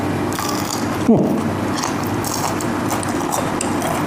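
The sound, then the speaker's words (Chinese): A single crisp crunch as someone bites into crispy fried pork intestines (jiaoliu feichang), one short sharp burst over a steady background hiss. “听得见那个酥脆那个感觉啊，我觉得焦溜肥肠第一点啊，就是这个口感是很多人特别喜欢的”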